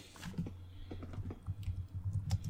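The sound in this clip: Typing on a computer keyboard produces many quick, irregular, faint key clicks over a low steady hum.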